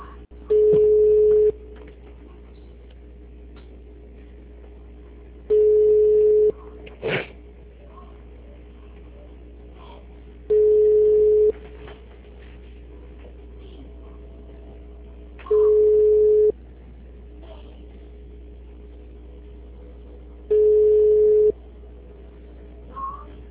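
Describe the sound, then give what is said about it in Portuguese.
Telephone line tone heard while calling a city hall: five evenly spaced, steady mid-pitched beeps, each about a second long, repeating roughly every five seconds over a faint, constant hum. “eu tô ligando numa prefeitura para pagar um contrato meu”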